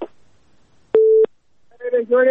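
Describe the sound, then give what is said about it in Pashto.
A telephone busy signal after a caller's line was cut off: one steady mid-pitched tone, loud and clean, with a voice before it and talk right after. “خو اوریدونکی اړیکه راسره پرې شوه.”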